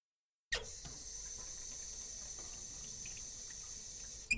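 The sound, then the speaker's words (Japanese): Water runs from a tap as something is washed under it, a faint, steady hiss that starts abruptly and continues unbroken, ending with a small click. “はい、これここの水道で洗って。”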